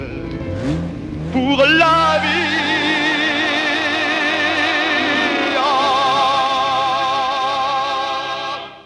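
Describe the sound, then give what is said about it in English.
A red Ferrari sports car blasts off, its engine revving in a rising whine over the first two seconds, then settling into a loud, sustained, wavering roar that holds for several seconds before easing slightly. “They toss the equipment into the back seat of a red Ferrari, don sunglasses, and blast off.”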